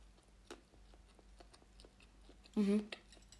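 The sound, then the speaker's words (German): A rice sandwich with tuna and beans is bitten and chewed. Faint, scattered clicking chews lead into one loud, thick, crunchy bite near the end. “Gleich noch mal einen Biss nehmen.”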